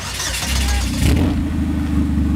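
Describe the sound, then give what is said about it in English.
A Chevrolet Cobalt race car engine revs as it fires up at a racetrack, a loud, continuous, rough mechanical roar with a throbbing low rumble. “Greg gives the green light, and with that, the Cobalt and Cole are ready to return to the track. Fired up.”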